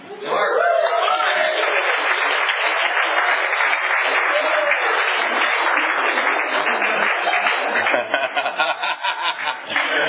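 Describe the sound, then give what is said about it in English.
Audience applause welcoming a warm-up speaker: dense, sustained clapping that stays loud and even for about ten seconds, with some chuckles in the crowd, then thins into more scattered claps at the end. “And let's give a rousing welcome for our warm-up speaker, Mark.”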